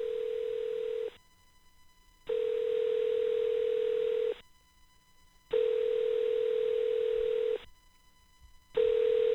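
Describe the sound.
Ringback tone heard while placing a telephone call, a steady buzzing tone sounding in long bursts of about two seconds separated by shorter silent gaps, repeating evenly with no voices.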